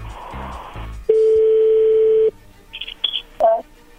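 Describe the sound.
A steady telephone dial tone while placing a call: one loud, continuous mid-pitched tone lasting a little over a second. A short burst of voices comes before it, and a few brief, higher chirps follow.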